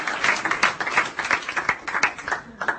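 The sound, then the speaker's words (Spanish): Church audience applauding during a sermon, a dense, continuous patter of many hands clapping with small swells in loudness throughout. “¿Le aplaude o no le aplaude?”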